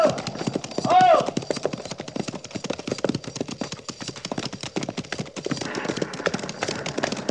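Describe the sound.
Horses' hooves clip-clop as a mounted cavalry patrol sets off, with many quick, busy hoofbeats throughout and a brief whinny early on.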